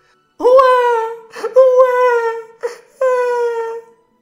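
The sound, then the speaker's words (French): An infant cries from a cradle floating on a river, giving three drawn-out wails of fairly steady pitch with short catches of breath between them, loud and alone. “quand Batia passa près du fleuve, elle entendit la voix d'un enfant qui pleurait.”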